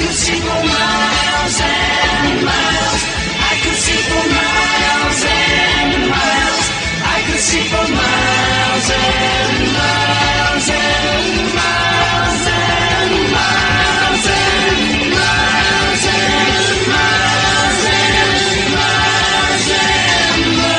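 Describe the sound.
A rock song played on the radio, with full band and vocals, loud, dense and continuous from start to end.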